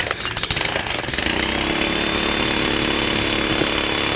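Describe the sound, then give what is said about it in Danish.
Pneumatic hammer pounding away near a balcony, a dense, loud, continuous rapid hammering with a harsh, gritty texture that stays steady throughout with no pauses. “Det er sådan en lufthammer.”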